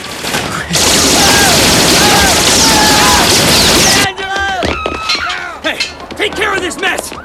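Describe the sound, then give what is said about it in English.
Gunfire erupts in a loud, dense hail of bullets, a continuous crackling barrage lasting about three seconds, in a shootout between mobsters; voices are heard over it and shouting follows once the firing stops. “dodges a hail of bullets to escape with the case”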